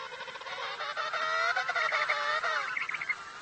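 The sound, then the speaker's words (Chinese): Penguin chicks calling among a crowd of thousands, a dense chorus of overlapping, harmonic, reedy cries that carries on steadily and fairly loudly throughout without a break. “母亲们弯下头仔细听小企鹅的叫声”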